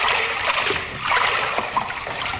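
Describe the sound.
Splashing and sloshing as someone wades through waist-deep water in a dark sewer, a continuous churning wash with small surges throughout.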